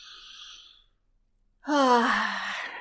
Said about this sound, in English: So I invite us to take a deep breath.